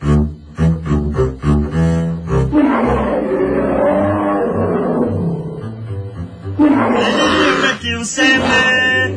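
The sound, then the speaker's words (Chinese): A human voice imitates a panda's call with loud, growling roars and rough wavering cries. The roars are drawn out, with a few short grunting bursts at the start and again near the end. “咁熊猫不嬲都系咁嗌噶啦”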